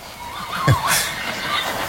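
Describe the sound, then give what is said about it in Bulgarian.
A horse whinnies once near the middle, a short wavering call that rises and falls in pitch over a faint steady background. “Явно някой държан на каишка е решил да разходи кон.”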